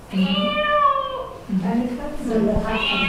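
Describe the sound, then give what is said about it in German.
Cat meowing in three separate calls, the first drawn out and tonal, the next two shorter, each a clear harmonic mew at moderate loudness with short pauses between. “Eine Katze.”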